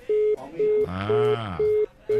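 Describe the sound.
Telephone line tone after a dropped call: five short, steady, even beeps at regular intervals, the last one cut off. A voice speaks briefly over the middle beeps.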